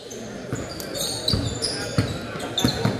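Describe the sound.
A basketball is dribbled on a court during a game, giving a few hollow thuds at uneven intervals under continuous talking.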